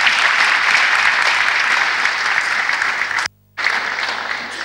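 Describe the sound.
An audience applauds to welcome viewers joining on television. The clapping is loud and steady, cuts out briefly near the end, then resumes.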